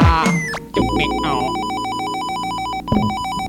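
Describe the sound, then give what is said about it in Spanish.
An electronic phone ringtone for an incoming call, a loud repeating pattern of bright, high beeping tones that runs throughout, with a busier jumble of sounds at the start. “Una llamada para el MC le reta. Cójalo.”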